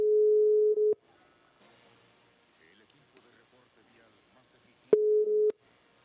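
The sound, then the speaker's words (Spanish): Ringback tone of an outgoing telephone call: two steady, mid-pitched beeps, the first about a second long and the second about half a second, separated by a long quiet gap. “Está sonando, a ver si contesta. No creo que conteste, pero vamos a ver.”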